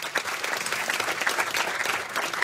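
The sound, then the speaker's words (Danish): A live audience applauds to welcome a guest onto the stage, with dense, steady clapping throughout and no talk. “Skal vi lige give ham en kæmpe hånd.”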